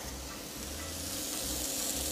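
Continuous sizzle of a pork hamburger frying with a drop of oil, a bright steady hiss with faint crackles and no voices.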